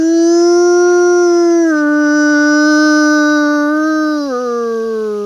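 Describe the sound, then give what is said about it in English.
A wolf howls in the darkness: one long, sustained, clearly tonal howl that steps down slightly in pitch partway through and dips again near the end. It is loud and heard alone, with no voices. “all of a sudden a howl comes at me, just like 30 meters away in the darkness”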